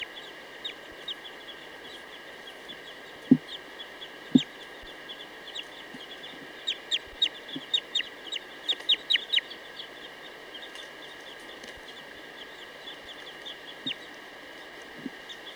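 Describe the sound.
Short, high bird calls repeat many times in quick chirps and clucks over a steady, high-pitched hum. A couple of louder, low taps break in early on.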